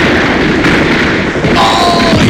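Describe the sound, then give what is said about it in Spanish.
Dense gunfire from a radio drama battle scene, heard as a loud, unbroken wall of overlapping shots and blasts without clearly separated bursts. “¡Fuego! ¡Fuego! ¡Fuego! ¡Disparen contra aquellos 3 hombres!”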